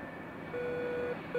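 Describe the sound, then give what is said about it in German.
An aircraft low-altitude warning for flying below 500 feet gives one steady mid-pitched beep lasting about half a second, followed by the start of a second beep at the end, over a quiet low background hum. “Wenn wir unter 500 Fuß gehen würden, wird es piepen. Ah, kann ich mal kurz demonstrieren?”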